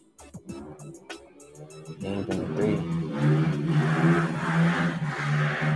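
Cars drive fast as if racing, with sharp engine bursts at first, then revving and accelerating into a louder, sustained roar that builds and holds.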